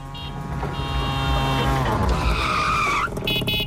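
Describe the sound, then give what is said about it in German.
A tuk-tuk drives with a buzzing small-engine drone, loud and unaccompanied, and its tone climbs steadily in pitch before dropping away briefly near the end. “ist unser Tuk-Tuk und das wird auch heute Nachmittag nochmal hier durchs Programm fahren”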